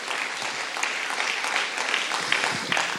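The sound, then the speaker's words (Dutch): Loud audience applause in a church, welcoming a guest to the stage: continuous dense clapping at an even level, with a few sharper individual claps popping out toward the end. “Ik wil je vragen om gewoon echt een heel hard City Life Church applaus te geven voor David de Vos.”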